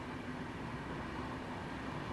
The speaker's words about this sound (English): Hold on, here's another train. This is another S-Bahn going on the other track there, heading outward.